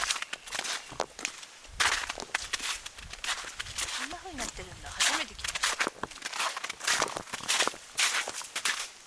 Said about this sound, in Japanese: 奥の院もだいぶ深くまで歩いてきた ね